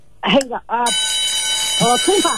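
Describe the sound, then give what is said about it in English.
A game show buzzer cuts in with a harsh, flat, sustained tone lasting about a second, set between bursts of excited talk. “On the buzzer. On the buzzer.”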